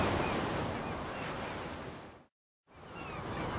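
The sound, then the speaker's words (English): Breaking surf stretches along the coast near the eastern tip of North Padre Island as a steady, broad rushing roar that drops out completely for a moment, then resumes at the same strength. “Stretching ahead of them to the southwest, as far as the eye could see, was a vast curve of intermittently breaking surf.”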